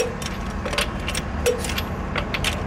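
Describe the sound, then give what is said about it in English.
A torque wrench clicks as lug nuts are tightened on a pickup truck wheel in an auto repair shop. Several sharp metallic clicks are scattered over a steady background noise. “until you hear the click of the torque wrench.”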